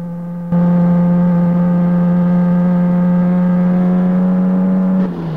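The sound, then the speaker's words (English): A car driving at top speed along a road, heard as a loud, steady engine drone with a fixed, buzzing pitch that starts abruptly and drops away at the end. “Dave overtakes another vehicle and drives at top speed along the road.”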